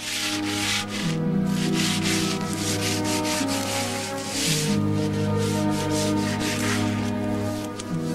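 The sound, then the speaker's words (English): Sandpaper rubs down a wooden window frame in continuous scratchy back-and-forth strokes, a loud, steady rasp over sustained low tones. “He grabs a piece of sandpaper and rubs down a window frame as a warder approaches, checks on him, and leaves.”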